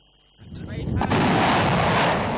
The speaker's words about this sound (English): The Mersads launched their missiles one after the other. Missiles are called Shaheen and are domestically produced by Iran.